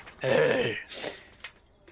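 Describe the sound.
A woman gives a sharp, voiced gasp as a deformed man appears in a tabletop role-playing scene. The brief, strained intake is followed by a few faint, breathy sounds.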